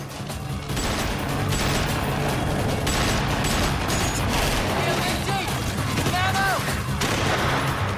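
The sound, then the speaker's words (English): Soldiers and militia fire in a street battle near an embassy at night, a loud, dense fusillade of many overlapping gunshots and bursts that keeps up without pause throughout. “As the soldiers and militia continue to fire, night vision shows more men racing down the street towards the embassy.”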